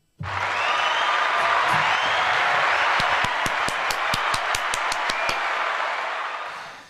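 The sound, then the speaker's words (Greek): An audience applauds with a broad, steady roar of crowd noise. In the middle, a run of individual sharp claps stands out clearly before the sound ends abruptly. “Χειροκρότημα.”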